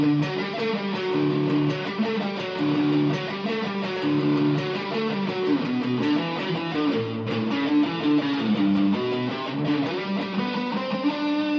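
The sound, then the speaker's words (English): E major chords picked out as arpeggios for a rock intro, with some fourth notes dropped in. Notes ring in a steady, continuous flowing pattern at moderate loudness, with no talking. “so I decided to just pick out the arpeggios of those chords, and that sounds like this.”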